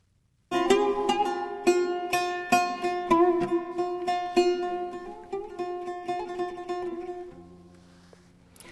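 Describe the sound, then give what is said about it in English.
Plucked notes of an oud, a pear-shaped stringed instrument from Iraq, played solo in a lively melodic run of many notes with bright ringing decays, settling onto a lower sustained tone at the end. “That's the sound of an oud, a 5,000-year-old instrument from Iraq.”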